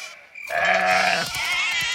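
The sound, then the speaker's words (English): Lambs bleating in a field, with one long, wavering, nasal bleat that is loud and alone, followed by rougher, noisier sound. “Lambs leap over the fence.”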